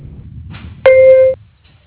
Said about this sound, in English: please leave a detailed voicemail at the sound of the tone